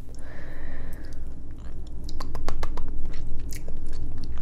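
Close chewing of a soft mochi rice cake: many wet, sticky clicks and smacks in an irregular rhythm, growing busier toward the end, with no talk.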